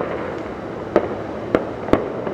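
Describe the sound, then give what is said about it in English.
Fireworks go off at night after 10 p.m. in town in Allentown, Pennsylvania: three sharp bangs burst over a constant noisy background hiss. “Buying fireworks became legal in Pennsylvania several years ago, but they aren't supposed to be shot off near buildings or late at night. Here's what things sounded like in Allentown Wednesday after 10 p.m.”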